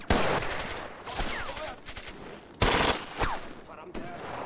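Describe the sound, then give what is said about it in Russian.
Automatic gunfire rattles in a firefight in the snow between soldiers and crawling German troops: several sharp, rapid bursts of shots separated by short pauses, loud against a quieter background. “Лейтенант стреляет очередью. Немец перекатывается по снегу в сторону от убитого. Стреляет. Старшина и лейтенант ведут перестрелку с ползущими к ним немцами.”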